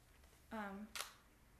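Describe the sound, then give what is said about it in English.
Camera shutter firing for a one-second exposure, heard as a single quiet, crisp snap that stands out briefly against near silence. “when I click the shutter, so here, I'll do it on 1 second, you'll be able to hear.”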